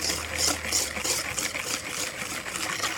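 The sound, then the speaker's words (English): Eggs being whisked with hot liquid in a bowl make a quick, steady scraping and clicking that repeats in many even strokes, with no talking. “If you think that you've added too much, just keep whisking. It'll all come together eventually.”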